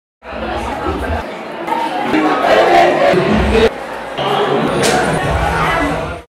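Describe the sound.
A loud audience crowd at a live show in Salvador shouts and cheers continuously, a dense roar of many voices that swells in the middle and stays strong until it cuts off.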